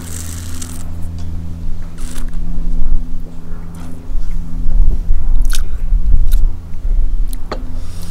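Loud chewing of crunchy food: a steady run of many crisp bites and crackling crunches of uneven rhythm over a constant low hum, with no talking.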